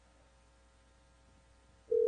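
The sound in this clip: A telephone busy tone sounds after a call is hung up. A steady, low electronic tone cuts in loudly at the very end, after near silence.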